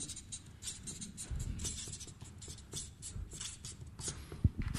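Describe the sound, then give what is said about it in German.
Marker or chalk writing on a board during a Bible-teaching discussion. Many short, scratchy strokes come in uneven bursts throughout, with a few louder taps near the end. “Ich schreibe es hier oben hin, ja?”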